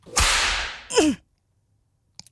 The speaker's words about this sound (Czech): teď dostaneš ránu bičem